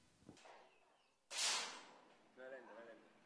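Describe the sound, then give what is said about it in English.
A sharp gunshot crack rings out at a recreational shooting range in Havana Park, quiet overall, preceded by a small tap and followed by a brief voice. “A recreational shooting range in Havana Park. You've got one shot left.”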